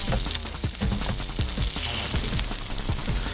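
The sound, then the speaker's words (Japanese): Takoyaki batter sizzling on a griddle at a takoyaki party: a dense, continuous crackle with many small pops and spits, holding steady in loudness throughout. “これたこ焼きできたんでこれ1個食べていいですか”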